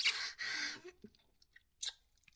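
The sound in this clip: Food being chewed, with a few crisp crunching bites early on, then quieter mouth clicks and one more crunchy bite near the end; no talking.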